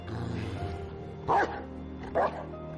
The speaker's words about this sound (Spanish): Y haz que el perro se calle, te juro por Dios que le meto una bala en la cabeza. ¡No! ¡Perrito es amigo mío! perro, cállate.